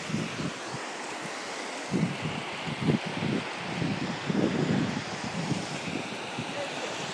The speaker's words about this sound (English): And this is the sound of the sea.